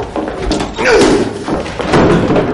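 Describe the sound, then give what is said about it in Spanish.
A bucket kicked in fury and a door shutting, heard as dull knocks and thuds within a busy, continuous stretch of sound. “Da una patada a un cubo con furia mientras su padre sale cerrando.”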